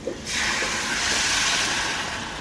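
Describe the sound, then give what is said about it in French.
Sizzling from a pan deglazed with savagnin wine after oil and aromatics have cooked in it for a few minutes: a sudden loud, steady hiss that starts after a brief quiet moment and holds evenly to the end. “Donc une fois qu'on a bien laissé, je pense que ça prend 5 minutes, ce travail avec l'huile et tous les éléments, on va déglacer au vin de savagnin.”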